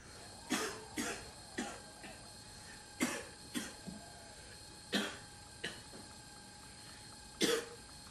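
A man coughs while a woman sleeps, giving a series of short, dry coughs in irregular bursts, faint and spaced apart against a quiet background.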